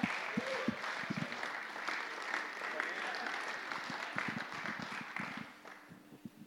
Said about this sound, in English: So give him a hand as he comes.